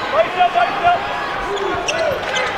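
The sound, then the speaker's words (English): A basketball is dribbled high during a college game involving Western Kentucky, giving a few dull, bouncy thumps on the court under steady talking. “Had McKnight fumbling the basketball. Now McKnight with a very high dribble.”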